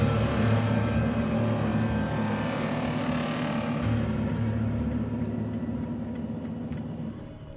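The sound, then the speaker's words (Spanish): A car engine drones low and continuous as the vehicle drives slowly, weaving along a road in a horror film, the steady rumble easing gradually softer toward the close. “El coche circula lentamente haciendo eses por la carretera.”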